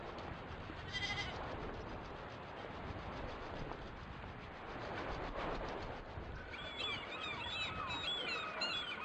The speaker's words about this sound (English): Let's take the herd home.